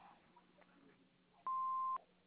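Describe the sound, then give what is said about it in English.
An answering machine beep sounds once before a message is left: a single steady, clear tone lasting about half a second, loud over faint line hiss. “I am unable to take your call right now. Please leave a message after the beep.”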